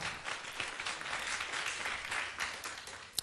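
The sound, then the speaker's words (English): An audience applauds a performer being welcomed onto a stage, the clapping steady, dense and fairly faint throughout, with one sharp click near the end. “俾啲掌聲佢先。”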